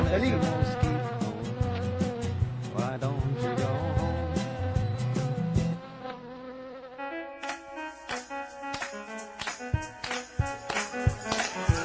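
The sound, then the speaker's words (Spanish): Mosquito buzzing, a thin, whining insect drone with wavering harmonics, fairly faint and ongoing, broken by sharp percussive hits and thinning briefly midway before resuming. “No me moleste mosquito.”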